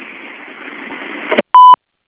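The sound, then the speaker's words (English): An answering machine beep: one short, clean electronic tone, steady in pitch. It sounds alone, right after a stretch of line hiss that cuts off abruptly. “If you would leave your message at the beep, we'll gladly return your call.”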